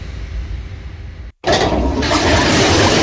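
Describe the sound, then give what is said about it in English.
A toilet roars as water surges back up: a steady rush of water breaks off in a brief silence, then returns louder and fuller, with no voices. “Oh no! The toilet shouldn't be making that noise. It's coming back up!”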